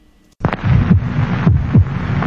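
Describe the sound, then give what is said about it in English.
Human heartbeat: a few deep, muffled low thumps recur at a steady pulse over continuous rushing noise. “This is the sound of a human heart. It will beat 72 times in this minute.”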